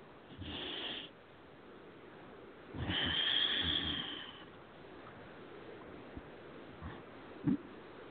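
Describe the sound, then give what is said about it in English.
A slow, deep breath taken during a relaxation exercise, heard as soft airy rushes: a short breathy swell, then a longer, fuller one, followed by a few faint clicks in the quiet. “Take a nice deep breath.”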